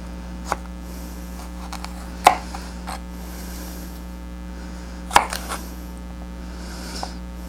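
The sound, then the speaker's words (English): A knife slices around the seeds of produce on a cutting board, giving a few sharp, isolated cutting strokes spaced seconds apart over a steady low electrical hum. “Sort of cut slices around the seeds. Again, like this.”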